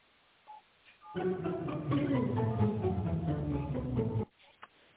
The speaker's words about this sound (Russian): Please dial the extension number or wait for the secretary.